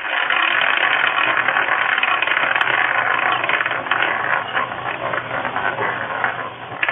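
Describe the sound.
A prize wheel spins with a loud, continuous rapid clicking rattle that runs steadily for about seven seconds.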